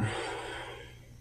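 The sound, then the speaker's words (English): A person imitates labored, gasping breathing with one drawn-out, raspy, breathy inhalation that is quiet throughout and fades toward the end. “she was gone by then. No, she was. Breathing like this,”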